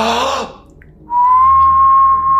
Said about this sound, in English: the old lighthouse that was originally on the property suddenly will appear on foggy nights, accompanied by an eerie whistling sound